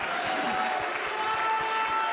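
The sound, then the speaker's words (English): A church audience claps in praise during a worship service. Many hands make a dense, even patter that holds steady from start to finish, with a faint crowd murmur behind it. “Oh, come on, somebody give Jesus a hand praise right now.”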